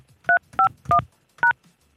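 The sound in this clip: Telephone keypad tones as an access code is dialed into a conference line: four short, clear dual-pitched beeps in quick succession, with brief gaps between them.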